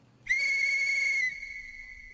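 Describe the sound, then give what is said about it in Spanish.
A train whistle sounds as a train departs: one sustained high, steady tone starts sharply, holds loud for about a second, then carries on more softly to the end. “Pasajeros a bordo, se va el tren con destino a Songo y La Maya.”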